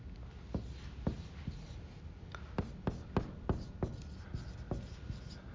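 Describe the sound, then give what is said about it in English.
Quiet handwriting, with faint scratching strokes broken by many sharp little ticks as the writing tip lifts and lands, in an irregular rhythm. “So I'm just going to write them kind of randomly here.”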